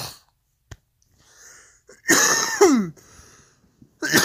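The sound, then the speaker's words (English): Harsh coughing after smoking a cannabis dab: a loud, raspy, wheezing fit in the middle, with a short earlier hack and another strained burst starting right at the end. “How the fuck are you still coughing when you dabbed like 3 minutes ago”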